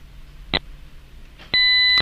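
Time signal beeps: a short, high electronic beep, then about a second later a longer, louder steady tone with clear harmonics that holds to the end.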